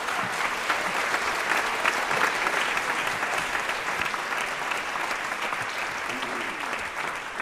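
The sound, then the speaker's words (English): Audience applause welcomes a singer from New Orleans, a steady, dense clapping that holds an even loudness from start to finish. “please give a warm welcome to Mashiya Lake”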